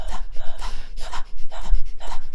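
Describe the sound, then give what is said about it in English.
Deep, heavy breathing in a steady rhythm, several breathy in-and-out pulls in quick succession, loud and close. “A letter to spell birth. Breathe.”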